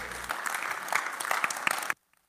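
Audience applause at a church service welcomes an elder coming up to read the scripture. The clapping is loud and dense, holds steady for about two seconds, then stops abruptly.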